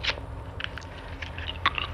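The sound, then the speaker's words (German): Gum being chewed vigorously: moist smacking and clicking mouth sounds in an uneven rhythm, close and fairly faint, with no talking. “Du würdest mir und dem Flipsy-Mobil aber vielleicht helfen, wenn du schon mal anfängst, ganz kräftig Kaugummi zu kauen. Okay, wenn's hilft, dann mache ich das.”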